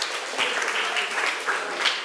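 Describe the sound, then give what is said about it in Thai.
Students in a classroom clap for two student groups, a brief, even patter of applause at moderate volume. “ปรบมือให้กลุ่ม2และกลุ่ม5ค่ะ”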